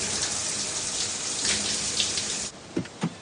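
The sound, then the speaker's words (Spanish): A shower runs in a bathroom while someone washes, a steady, dense spray of water that stops abruptly partway through, followed by a couple of soft thuds in the quiet. “se lava y comienza a llorar bajo la ducha.”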